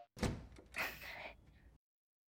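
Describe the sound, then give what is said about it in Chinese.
A door opening at the entrance of a home: a sudden knocking onset, then about a second and a half of continuous rattling, scraping noise that stops abruptly. “老公，你还是开门了。”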